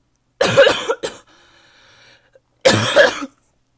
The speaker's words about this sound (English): yes, I'm still coughing. I did get cough medicine. But obviously it's not doing the most it can, because I'm still coughing like a crazy person.